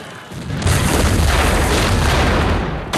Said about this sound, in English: British soldiers are sent flying as more artillery is unleashed on the fort's defenses.